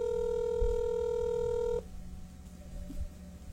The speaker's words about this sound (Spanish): Todo el pueblo anda ocupado hoy. Answer the phone, please.